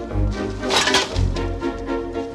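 A restaurant trash bin is emptied into a dumpster, making a short burst of crunching, cracking clatter that lasts about two seconds with no voices.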